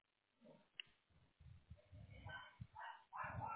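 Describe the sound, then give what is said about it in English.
A dog barks at the mail in faint, muffled bursts, several sharp barks and yips coming close together and growing more insistent toward the end. “Excuse my dog. He hates the mail, man.”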